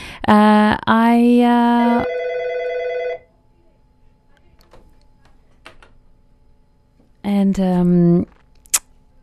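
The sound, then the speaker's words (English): A telephone rings repeatedly with an electronic ringtone of stepped, warbling tones. It sounds for about three seconds, falls quiet apart from faint clicks, then rings again briefly. “Excuse me, I'm sorry about the phone that keeps ringing.”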